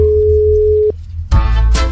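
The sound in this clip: A telephone tone sounds while a call is being placed: one steady, pure tone holds for nearly a second and cuts off abruptly. A short quiet gap follows, then a burst of louder, rougher noise.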